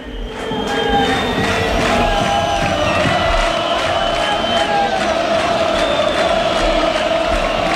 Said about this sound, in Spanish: Ya se retiran, parece que sin mayores complicaciones, tanto los futbolistas como el cuerpo arbitral. Así suena Castalia.